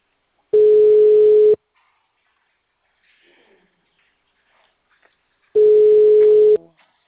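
Telephone ringback tone on an unanswered call: two steady one-second tones, each followed by a long silence, with only faint rustling in between.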